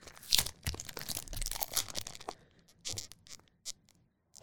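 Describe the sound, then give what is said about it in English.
Tape is peeled off an object for ASMR in a series of soft, crackly tearing and crinkling bursts at irregular intervals. The bursts thin out into a few faint pulls and then quiet. “I'm taking the tape off of this. Is it tape? Yeah.”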